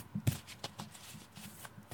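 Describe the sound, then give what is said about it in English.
A deck of cards is shuffled for a card reading, producing a quick series of faint, soft papery flicks and taps in an irregular rhythm, quiet and alone with no voices. “I am shuffling the cards for those of you who are listening.”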